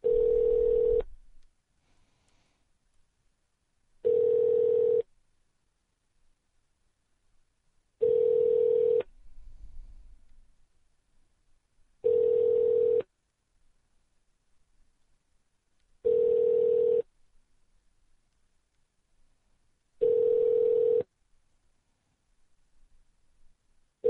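Telephone ringback tones while the line rings through to a casino poker room extension: six steady, single-pitched tones spaced evenly about four seconds apart, with quiet line hiss in between and no talking.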